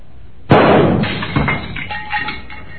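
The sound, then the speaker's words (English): A pistol shot in a duel strikes and breaks a candle holder: one sudden loud crack, then a decaying rattle and clatter with a smaller knock partway through. “Well, sir, you have broken a candle holder and ruined a picture.”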